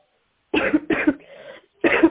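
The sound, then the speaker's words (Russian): A woman with a cold coughing: three harsh, loud coughs, the first two close together, then a quieter raspy breath before the third, with no other sound. “Нет, я не хочу, чтобы ты кашляла тут.”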